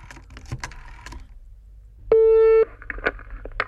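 Telephone line tone after a number is dialed on a desk phone: a few light clicks, then one loud, steady tone of about half a second, followed by more clicks.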